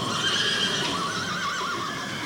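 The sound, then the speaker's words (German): Horses neigh in a stable, a loud, shrill whinny with a quavering, wavering pitch that carries through the whole moment, with faint hoof shuffling beneath. “Die Stuten stehen alle drinnen. Im Stall schimpfte Baba Yaga mit den Pferden.”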